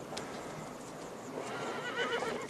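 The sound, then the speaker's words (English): Horses neigh and their hooves clip-clop as riders arrive leading a string of horses. The sound is faint, with soft clopping and a wavering whinny near the end. “Now the greasy John and Davy ride into Big Whiskey, leading a string of horses.”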